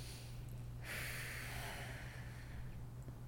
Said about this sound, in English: Just take a deep breath.